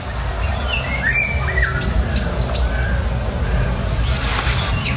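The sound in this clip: A family of golden orioles calls while moving between trees, giving a few short, fluty whistles and chirps that come and go over a steady low background rumble.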